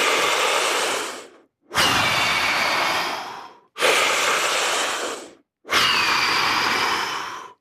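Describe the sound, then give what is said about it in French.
Very strong, deep breathing during a breathing exercise that fills and empties the lungs completely. Four long, forceful, airy breaths come one after another, each about one and a half seconds long, separated by short silent pauses. “Ça fait des respirations très fortes. Et puis on peut essayer de remplir le plus possible les poumons et de vider complètement les poumons.”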